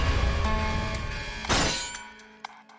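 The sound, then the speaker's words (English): A glass display case is smashed: one sudden, loud shattering crash, followed by fainter scattered clinks of falling pieces as the sound dies away. “Angel broke the case, and in doing so set off the alarm.”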